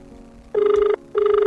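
Two rings of a telephone ringback tone during a radio call-in, each a steady buzzing tone lasting under half a second, separated by a short silence.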